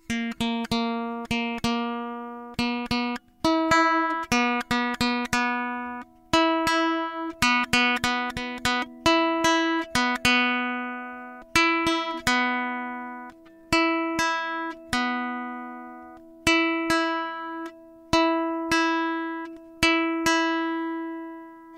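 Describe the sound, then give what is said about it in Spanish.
Guitar second string plucked again and again against a reference note as the out-of-tune string is tuned up to match, giving many clear, ringing plucked notes in short repeated groups, each decaying before the next. “Escuchemos un ejemplo de esta situación. Segunda cuerda desafinada. Procedamos a subir la segunda cuerda.”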